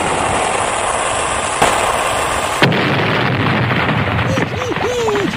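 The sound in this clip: A loud explosion sound effect follows a shot fired at a ship: a sustained, roaring blast of noise with two sharp cracks in it. A few high warbling tones rise near the end.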